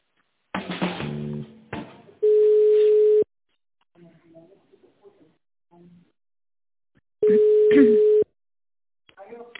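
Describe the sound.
Ringback tone of a telephone call being connected: two long, steady, even rings separated by a pause filled with faint, scattered, brief sounds.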